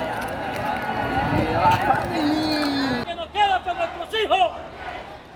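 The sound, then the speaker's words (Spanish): A dense crowd roar from a massive street protest march, with a steady murmur of many voices and shuffling feet, followed by a single voice speaking close by over the fading crowd. “Multitudinaria marcha.”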